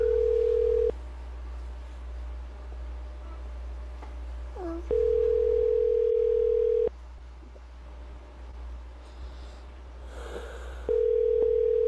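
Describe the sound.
Telephone ringback tone heard while placing a call: a steady mid-pitched electronic tone in three bursts about two seconds long, the first and last cut off, separated by long quiet gaps over faint background hum.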